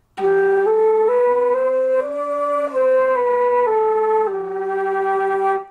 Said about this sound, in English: improve your tone quality on flute by singing and playing at the same time. When you sing and play at the same time, it's going to sound something like this.